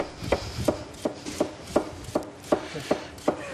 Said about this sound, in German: Das brauchen wir jetzt dann zum Schneiden. Das zeige ich dir eine und dann darfst du auch.